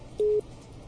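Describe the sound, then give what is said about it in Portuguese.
One short telephone beep from a busy tone on a failed call. The tone is steady and mid-pitched, lasts about a fifth of a second, and is heard alone on a quiet line. “A ligação falhou mais uma vez.”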